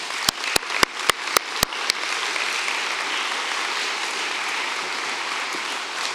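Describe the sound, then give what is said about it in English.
Audience applause welcoming two speakers to the stage: a few sharp, loud claps ring out at the start, then merge into a steady, even wash of clapping that holds to the end. “Would you put your hands together as we welcome up Tim and Bernice Berry?”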